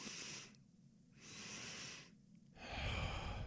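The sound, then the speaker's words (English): Guided meditation breathing exercise: a half inhale through the nose, a brief pause, a second full nasal inhale, then a long mouth exhale. Three soft, airy breath sounds separated by two short silences, the last one heavier and fuller. “we're going to inhale through our nose about halfway, stop for a second, and then inhale it all the way in, and then let it all out through the mouth. So it's going to sound like this.”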